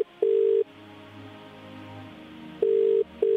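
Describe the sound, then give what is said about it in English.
Ringing tone after dialing a telephone: three loud, steady, mid-pitched tone bursts, a single one first, then after a long quiet pause two more in quick succession. “All right, dialing now.”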